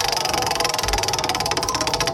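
A prize wheel spins during a trivia contest, giving a rapid, steady run of ticking clicks. It is loud and continuous throughout, with no voices.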